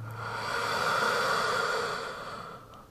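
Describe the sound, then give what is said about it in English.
One deep breath, drawn in and released as a long, airy rush of breath noise that swells and then fades. It is soft and heard alone, during a seated breathing exercise that stretches the ribs out to the sides. “Fill your chest. So your ribs stretch out to the sides, not out front, out to the sides. And then exhale, sit taller.”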